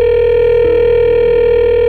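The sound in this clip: A telephone sounds with a loud, steady electronic buzzing tone of several layered pitches, unbroken for just under two seconds, with no voices over it.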